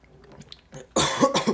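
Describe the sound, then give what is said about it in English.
Sudden, harsh coughing after a sports drink was accidentally inhaled: a short fit of sputtering coughs that bursts out loudly after a brief, quieter lead-in. “I accidentally just breathed some Powerade.”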